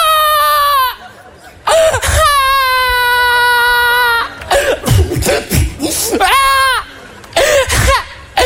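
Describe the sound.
Loud, drawn-out wailing sobs: several long, high, quavering cries broken by gasping, coughing sobs, intense and nearly continuous throughout.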